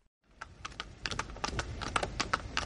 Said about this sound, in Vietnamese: Trên đại lộ quốc vương, một chiếc xe ngựa xa hoa rời khỏi nghị viện vương quốc.